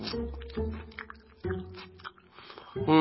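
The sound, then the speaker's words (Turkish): Chewing gum in a cartoon scene makes a few soft, squishy chewing sounds in separate bursts, mixed with tonal background sound. “Önce sakızımızı çiğneyelim şöyle.”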